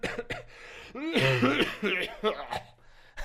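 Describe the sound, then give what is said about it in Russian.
A person coughing to demonstrate a cough during a lesson about colds: a few harsh, breathy cough bursts mixed with voiced, throaty sounds, fairly quiet and uneven. “Это кашель. Да, я что делаю? Я кашляю сейчас.”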